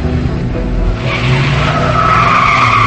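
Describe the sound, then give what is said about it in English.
A car pulls away with tires skidding and squealing: a low engine rumble, then a rising squealing tone that grows slightly louder toward the end. “They drive away.”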